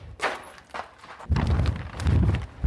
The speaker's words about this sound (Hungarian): azon keresztül egy falépcsőn tudunk feljutni egészen a padlástérbe. Elindulunk.